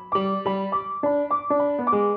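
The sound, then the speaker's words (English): Piano playing a short phrase of distinct struck notes, each ringing briefly before the next in an even rhythm, moderately loud with no voices. “today's episode is all about the sound you're hearing behind my voice, the piano.”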